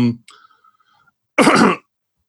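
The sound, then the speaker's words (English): A single short, harsh cough bursts out during an interview about a writing device, coming after a brief fragment of a voice and a pause. “excuse me, I have a little cough here”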